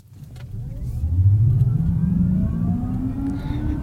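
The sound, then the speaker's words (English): Futuristic electronic driving sound from a Kia electric vehicle's Cyber sound setting: a loud synthetic hum that swells in and climbs steadily in pitch, then settles into a sustained whirring tone, with no talking. “by far, the funniest one is the Cyber. Provides a new futuristic electronic sound for electric vehicles.”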